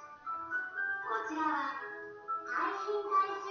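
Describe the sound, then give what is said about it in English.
A little melodic tune played from a vehicle in the street, its bright repeating tones mixed with a voice that is also audible throughout. “Sorry if you can hear that voice in the background. Oh, now they play a little tune. Can you hear that?”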